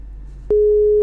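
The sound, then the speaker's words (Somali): Busy signal after a phone line was cut off during a call: a steady, pure tone starts partway through and holds to the end over a low hum. “qadka telefoonka ayaa ka gooyay”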